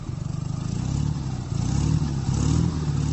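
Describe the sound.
A motorcycle engine runs with a throbbing low rumble and rapid pulsing, its loudness swelling a little partway through and staying strong to the end.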